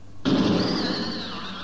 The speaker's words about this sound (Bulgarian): Уж откриваш нещо ново, а откритието ти внезапно експлодирва и те прави на прах.